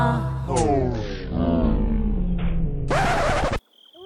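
Wolves howl in long, sustained, overlapping tones with rich harmonics and wavering pitch, loud throughout until an abrupt cut.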